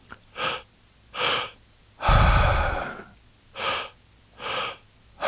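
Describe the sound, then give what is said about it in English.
In a breathwork demonstration, a person takes a double inhale, filling the low belly and then the high chest. Two quick, airy intakes are followed by a long, loud, rumbling exhale, and then two more sharp inhales. “we're breathing through the mouth and two breaths in. The first breath is in the low belly. The second one moves up into the high chest.”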